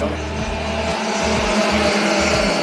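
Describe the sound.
Racing kart engines howl on a race track during a youth-class heat of a national karting championship, with loud, continuous buzzing whose pitch steps up and down as the karts accelerate and shift through the final corners.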